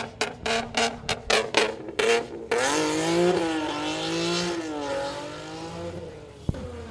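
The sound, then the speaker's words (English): A V6 car doing a burnout and revving at a cars-and-coffee meet: a rapid run of sharp engine revs, then a sustained rough roar with a broad hiss of spinning tires and a wavering engine note. “He said that the V6 burnout and rev was cute, but I'm going to pull up my cammed Camaro.”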